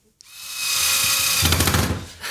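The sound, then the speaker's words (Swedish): Power drill whirring steadily as it drives a screw while a sign is assembled, with a screw going into a hatch. The motor sound runs loud and continuous for about two seconds, with a rattling, pulsing strain near the end before it briefly stops and restarts. “Jag hoppas inte jag skruvar rakt ner i luckan.”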